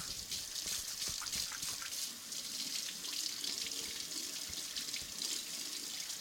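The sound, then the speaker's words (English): Water runs steadily from a kitchen tap into a sink as hands are washed during baking, a continuous even splashing stream with no voices. “Now that gets set aside and you can wash your hands.”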